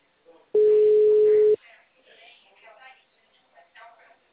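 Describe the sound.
A single steady telephone tone sounds for about a second while a call to a bank number is placed. Low, quiet talk follows.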